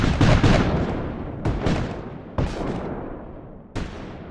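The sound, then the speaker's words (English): Artillery batteries firing on Union troops: a series of heavy, loud booms, some closely paired, each trailing off in a long rumbling decay. “A bugle sounds the warning, but little good it does as Old Jack's batteries unload.”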